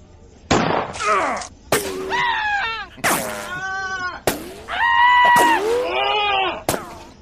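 Gunshots and screaming inside a large retail store: several sharp, loud bangs, each followed by high, wavering screams and wails from people, with the cries rising and breaking in bursts between the cracks.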